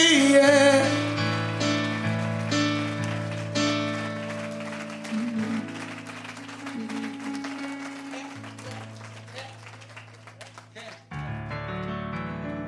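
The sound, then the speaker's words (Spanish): Clapping in a worship service, rapid hand claps running under sustained keyboard-like music that holds steady tones throughout. “Un aplauso que va a mantener los cielos abiertos.”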